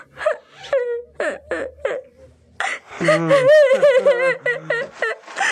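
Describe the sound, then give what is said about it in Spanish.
A person crying, with breathy sobs and short catching gasps that build into a loud, sustained wail with quivering pitch, then more broken sobbing. “cuando termines de llorar me lo avisas”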